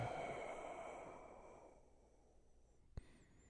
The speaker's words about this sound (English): Breathe in through your nose. Yeah. And out through your mouth.